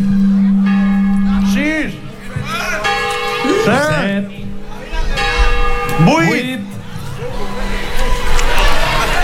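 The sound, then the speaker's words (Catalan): A church bell strikes the midnight chimes at New Year, with several deep ringing strokes and long humming decays. A voice talks over the tolling. “Primera campanada. Segona campanada. Tercera. Quarta. Cinc.”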